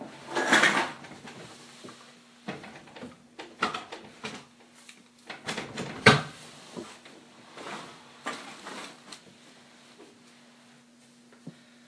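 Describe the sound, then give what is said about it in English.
Cans of food being put away in a cupboard: several hollow metallic clunks and knocks, with softer rattles between them, come at an uneven pace. “Now I'm putting a couple extra cans away of food.”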